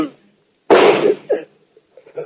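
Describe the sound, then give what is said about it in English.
A single loud gunshot from a gun bursts out sharply and decays briefly, with a voice heard just before and a few short vocal sounds after. “Oh, now, put away that gun. Not till I do this.”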